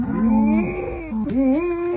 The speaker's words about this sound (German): Die Hündin Lucy geht gerade viral. Sie liebt Kühe und wenn die Moon, muss Lucy immer mitmachen. Statt bellen klingt das also so.